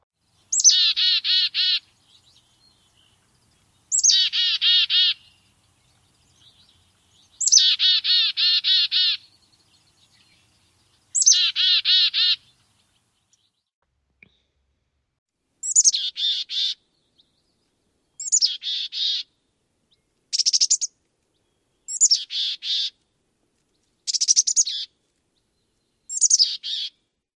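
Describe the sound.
Black-capped chickadee song, then mountain chickadee song, the mountain's raspier and harsher. Four long buzzy phrases with pauses between come first, followed by a quicker series of shorter, higher notes, all alone without other sounds.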